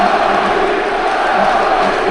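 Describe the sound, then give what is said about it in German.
Football stadium crowd cheering at an Arminia match late in the game, with fans already celebrating. It is a loud, steady roar of many voices that holds unbroken from start to finish. “Das Publikum feiert hier schon ein naja, relativ wahrscheinlich ein Sieg.”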